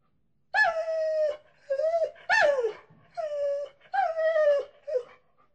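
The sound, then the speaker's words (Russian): A dog howls and whimpers in six drawn-out, whining cries, each a tonal wail with bright overtones, separated by short pauses and heard alone without talk. “Фу! Пошла отсюда! Сидеть, я сказал! Вот так! Псина!”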